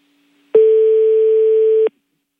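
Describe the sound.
Telephone busy tone after a call is cut off: a single steady mid-pitched beep lasting just over a second, sounding alone and ending abruptly.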